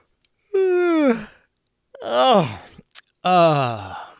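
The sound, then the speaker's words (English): A person gives a big, drawn-out yawn, voiced as three separate groaning bursts with falling pitch, loud against silence. “The citizen yawned real big”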